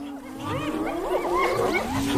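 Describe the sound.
An annoyed lion roars near its prey, a sustained, wavering growl whose pitch repeatedly rises and falls over a couple of seconds, moderately loud with no talk.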